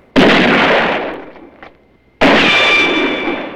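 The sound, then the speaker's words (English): Two loud gunshots crack out as opposing sides trade fire in a shootout, each a sharp blast followed by a long, fading rumble, with the second shot arriving about two seconds after the first. “John shoots. The opposing factions trade shots.”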